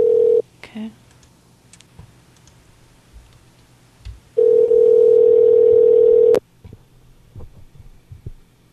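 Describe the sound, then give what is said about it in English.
A landline telephone dial tone heard while a number is dialed: a brief steady tone at the start, then quiet stretches with faint clicks, then a loud, steady, unbroken tone lasting about two seconds, followed by more faint clicks. “Okay, well, I'm dialing a number here. I'm down to my last bit of numbers.”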